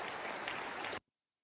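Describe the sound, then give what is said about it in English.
A church audience applauds to welcome a guest speaker during a morning service. The clapping is dense and steady for about a second, then cuts off abruptly into silence. “Let's give him a hand and open our hearts to the Word this morning.”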